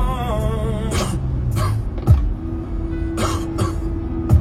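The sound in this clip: A man coughing in a handful of short, harsh bursts spread over a few seconds, over a steady low tonal background.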